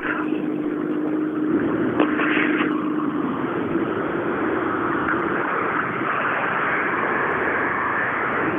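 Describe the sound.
A rally car running the last stretch of a special stage toward the finish, its engine a steady, loud droning roar with a thin whine near the start, holding an even level throughout.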